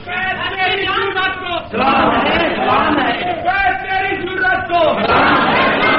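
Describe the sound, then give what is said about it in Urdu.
Crowd chanting slogans during a political speech: loud massed voices in repeated rhythmic bursts, with a brief dip before the chanting surges again. “میں ٹھہرو, میرے ٹھہرو, ٹھہرو ٹھہرو نعروں کیا کرتے ہو؟ خاموش ہو جاؤ.”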